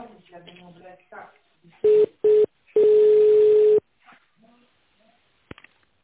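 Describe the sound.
Telephone line tones during a call transfer: two short beeps and then one longer steady tone, all at the same pitch, with talk just before them and a few faint clicks afterward.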